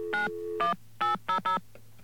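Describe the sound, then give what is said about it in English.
Touch-tone beeps as a telephone number is dialed to reach the White House: five clear, evenly spaced beeps over a low steady hum, with no voices. “I'm going to fade it down while I dial the number”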